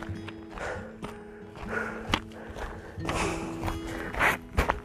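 Footsteps on a path going downhill in full sun: irregular crunching steps with a few heavier thuds, steady and moderately loud, with a faint tonal hum running underneath.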